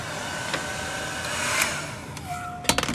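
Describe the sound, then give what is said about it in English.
A hair dryer blow-drying natural hair gives a steady, rushing whoosh with a faint motor whine running through it. A few sharp clicks come in near the end. “So I'm going to blow dry the right side.”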